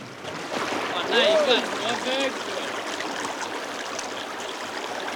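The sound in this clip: River water rushing as canoes glide over a short drop-off on a murky brown river, a continuous hiss of flow that swells briefly early on before settling into an even, moderate rush.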